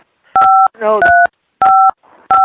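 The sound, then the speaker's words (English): Four keypad tones from someone dialing a smartphone, each a steady, clean dual-pitch beep held briefly, evenly spaced, with short bursts of voice in the gaps between them. “Hold on. He's dialing his smartphone.”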